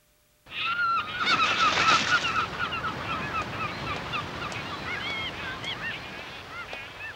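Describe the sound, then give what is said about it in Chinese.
Many seagulls calling at once, a dense chorus of overlapping squawks and honking cries that starts abruptly and stays loud and busy throughout. “哇，好多海鸥啊！”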